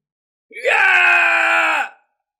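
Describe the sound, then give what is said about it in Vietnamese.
A man screams in agony: one loud, drawn-out wail lasting over a second, rising at the start, then holding steady before it cuts off. “Vương Húc kêu thảm thiết, toàn thân vỡ nát, bị một tiếng rống tổn thương tới căn nguyên”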